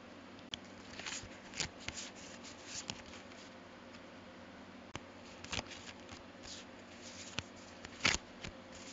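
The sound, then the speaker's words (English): Shuffling of a Modern Spellcaster's Tarot card deck, with soft, irregular riffles and taps and a few sharper snaps. It is faint throughout and no voice is heard. “Today, I'm using the Modern Spellcaster's Tarot because I had it out and I don't use it nearly often enough.”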